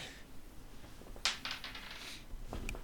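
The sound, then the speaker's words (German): Dice rolled for a perception check in a tabletop role-playing game give one sharp clatter followed by a few quick rattling bounces, then a lone faint click; quiet overall. “Eine natürliche 20. Solange wir heute nicht mehr kämpfen, sind meine Würfel perfekt.”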